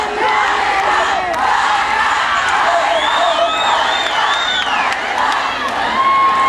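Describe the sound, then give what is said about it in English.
A crowd cheers and shouts together at a live show with a band: loud, sustained group yelling with high whoops rising and falling through the middle, holding strong throughout. “You think just because you cheer as a group, I'm going to do it?”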